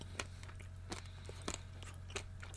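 Crunchy chewing of a cheap, 5p sugary sweet: soft, irregular crunches and bites with a few sharper cracks standing out, all faint and close, with no talking.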